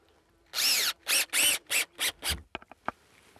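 Power drill driving screws to fix a sign onto a post in a nature park: six short, loud whirring bursts in quick succession, followed by a few faint clicks.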